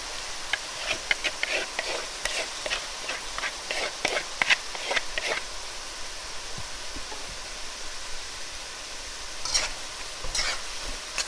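Onion, long onion and garlic sizzle while sautéing in a pan for a sofrito. A steady, fairly soft frying hiss runs throughout, with several sharper stirring clatters in the first half and a few more near the end.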